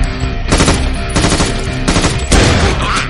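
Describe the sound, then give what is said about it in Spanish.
Gunfire from hooded men shooting at a girl on a city street in an action thriller film, loud rapid automatic bursts that crackle densely with a few brief gaps between volleys. “A pie de calle, los encapuchados disparan a la chica.”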